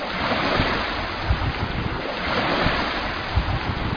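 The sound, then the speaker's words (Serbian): Waves of the Aegean Sea wash steadily onto the shore at a small seaside town, a continuous rushing surf with gentle surges, mixed with wind buffeting the microphone. “Ovo što čujete jesu talasi Egejskog mora na čijoj se obali nalazim, u gradiću Uranopolis”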